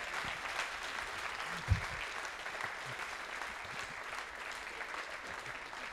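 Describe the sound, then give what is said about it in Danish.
Audience applause, a steady wash of many hands clapping that runs throughout at an even level, with one brief louder thump early on. “Det var et mærkeligt klap derovre fra”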